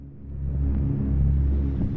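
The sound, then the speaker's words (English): Vintage cars from 1939 London drive past a parliament building, heard as a low, continuous engine rumble. The rumble swells gently and stays fairly even throughout, with no voices. “In black and white, footage of vintage cars driving by the Houses of Parliament.”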